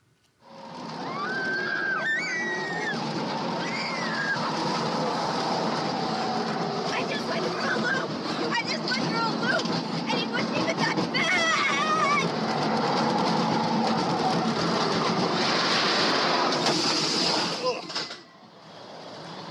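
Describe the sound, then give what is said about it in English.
A ride on a looping roller coaster: a loud, continuous roaring rumble with rushing wind noise and rattling, with voices carried along throughout, before the roar cuts off and a quieter tail follows. “And they got on the roller coaster and he recorded the audio of what happened. I want you to take a listen.”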